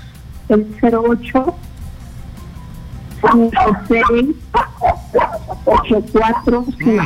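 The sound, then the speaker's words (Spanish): A small dog yaps sharply in the background of a phone call: a quick burst of a few high barks, then after a pause a longer run of many rapid yaps. “Que se calle un ratito el perrito, por favor.”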